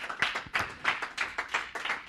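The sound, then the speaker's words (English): A church audience claps their hands in a steady, rhythmic beat, with many crisp, evenly spaced claps at a fairly soft level. “If you believe that, clap those hands.”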